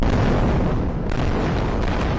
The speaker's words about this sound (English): There were explosions across Gaza's nightline sky Monday evening.